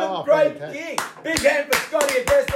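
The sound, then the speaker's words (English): Hand claps for a football guest at a Christmas show: a few sharp, irregular bursts of clapping scattered through continuous talking. “Big hand for Scotty Agresta, ladies and gentlemen.”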